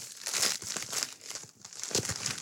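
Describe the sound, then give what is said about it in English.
A bag being torn open by hand gives off steady crinkling and crumpling with a few sharper tearing rips. The bursts are many and irregular, fairly quiet, and heard alone without any talk. “I'm still trying to tear this bag open because I did not bring a knife over here.”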